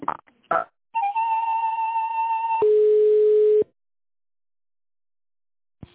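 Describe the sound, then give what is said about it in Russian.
Telephone tones play while a call is transferred to a specialist: a few short clicks, then a steady electronic tone that switches to a lower steady tone before cutting off into silence. “Секундочку, сейчас соединю вас со специалистом.”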